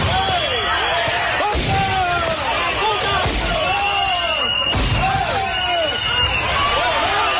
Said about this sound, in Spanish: Este era el sonido de las cargas policiales.